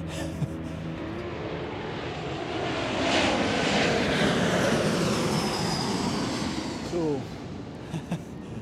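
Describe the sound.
Aircraft engine noise at an airport: a broad, steady roar that swells through the middle and eases slightly toward the end.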